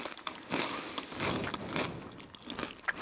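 Potato crisps, smoky smoked-salmon flavour, crunched while being tasted: several irregular, dry, crackly crunching bursts, fairly loud and with no voices over them.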